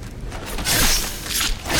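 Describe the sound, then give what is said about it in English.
A sword stab kill animation on a Draugr in a video game: harsh, noisy metallic scraping and grinding that swells into a couple of bursts. “Okay. I just shoved my sword right up, like, into his rib cage. That was an intense kill animation.”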